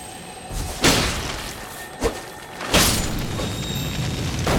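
A beetle creature explodes in a video game: three dull booming thumps, the last the heaviest, break through a steady background noise.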